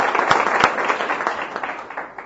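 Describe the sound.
Applause from an audience at a community meeting, a dense patter of many hands clapping that holds steady, then thins slightly toward the end.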